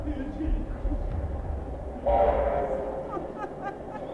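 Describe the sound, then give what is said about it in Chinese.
A train approaches with a low, steady rumble that swells into a louder, brighter surge about halfway, then settles back. “火车，火车来了！”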